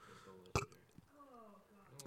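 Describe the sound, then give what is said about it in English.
A faint, low, croaky burp with a drawn-out tonal quality, set among soft clicks and quiet mouth noises. “That was a burp, yeah.”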